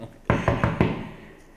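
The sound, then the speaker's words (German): Knocking on a door: four quick, sharp raps in an even rhythm, loud against a quiet background, with the last one ringing out briefly. “Und jetzt klopfe ich an.”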